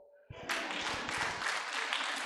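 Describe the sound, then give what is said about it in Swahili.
Audience applause bursts out after a brief moment of quiet, then settles into a steady wash of dense clapping from many hands. An audience is cheering during a sermon, and no voices come through the noise. “Nipigie makofi.”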